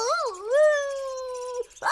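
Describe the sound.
A person imitates a wolf howling at the moon with a wavering, rising vocal howl. The howl levels into a long sustained tone, then breaks off into a short noisy burst.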